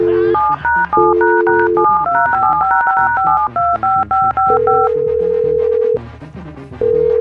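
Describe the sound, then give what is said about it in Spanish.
Touch-tone telephone keypad dialing, a long run of many quick two-tone beeps at shifting pitches with short gaps, broken by a couple of longer steady tones, loud and alone without talk. “le marcamos otra vez, ahí te va. otra vez, márcale otra vez.”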